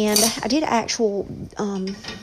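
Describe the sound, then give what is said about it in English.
Dishes and cutlery clink as they are loaded into a dishwasher, giving a few light knocks and chinks under a person talking. “I'm doing dishes, if you're wondering what that noise is. I'm loading the dishwasher,”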